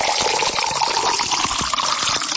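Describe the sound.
Spring water being poured into a drinking glass, a continuous splashing, gurgling pour that stays steady from start to finish.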